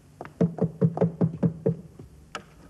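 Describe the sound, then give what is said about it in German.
Someone knocking: a quick run of about seven hollow, fairly loud raps in an even rhythm, then one more knock after a short pause. “Aber da klopft doch jemand.”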